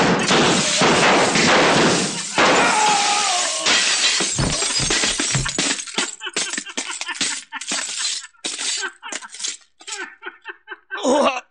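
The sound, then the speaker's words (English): Gunshots shatter mirrors in loud, dense bursts of breaking glass, followed by many scattered, tinkling shards as the glass falls and settles. “Sooner or later, one of us would stop hitting mirrors and get the real thing.”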